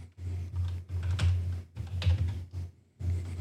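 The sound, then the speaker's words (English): Typing a search on a computer keyboard: quick bursts of clicking keystrokes separated by brief pauses, moderately loud over a low steady hum. “to bring up the one I'm looking for, I type in God's Missionary Church abuse”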